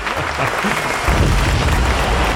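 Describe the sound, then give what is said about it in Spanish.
Audience applause and ovation from a live crowd, a thick, continuous patter of many hands that swells noticeably louder about halfway through and stays full to the end. “Porque el aplauso, comenzamos ovaciones.”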